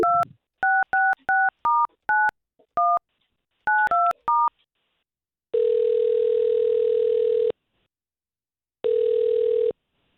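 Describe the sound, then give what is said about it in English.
Touch-tone keypad beeps dial a telephone number in a quick series of short, bright tones, followed by two long, steady ringing tones separated by silence, with no talk. “Jennifer, and let's see if we can't get her on the line”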